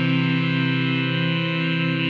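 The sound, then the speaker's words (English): A teleportation machine sound effect: a steady, buzzing electronic hum with a rich, distorted tone that holds at an even level without a break for about two seconds. “Wow, that was beautiful, teleportation machine.”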